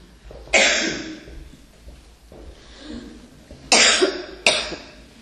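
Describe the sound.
A few harsh coughs from a tickle in the throat, three sharp and loud with fainter throat sounds between them, heard alone without talk.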